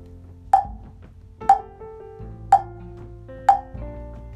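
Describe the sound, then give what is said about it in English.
Four evenly spaced drum beats, about one per second, struck to keep pace while a mantra is chanted, each a sharp hit with a short ringing tail over a low background. “I am beating the drum. It sounds like this.”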